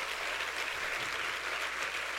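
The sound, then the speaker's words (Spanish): Dense, continuous applause from a church audience, cheering the Lord during a sermon, holding a steady, even wash of many hands clapping at once, with no voices heard. “Si ese es el aplauso para el Señor,”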